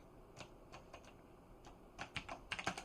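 Computer keys are pressed softly and sparsely at first, then tapped in a quicker burst toward the end, each keystroke a faint, sharp click.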